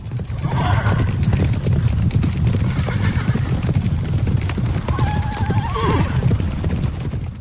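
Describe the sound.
Horse hooves clip-clop steadily and loudly as a horse-drawn carriage sets off. A whinnying neigh rises above the continuous hoofbeats partway through.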